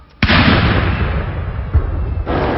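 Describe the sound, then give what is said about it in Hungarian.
An artillery salute of the customary 41 guns for the Queen at the close of her birthday parade: a heavy boom with a long rumbling tail, followed by a few further booms. “A parádé végén a tüzérség a szokásos 41 ágylövéssel köszöntötte a királynőt.”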